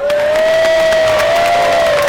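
A studio audience at a quiz show taping cheers and applauds in a loud, dense, unbroken roar, with one high, sustained yell held above the clapping throughout.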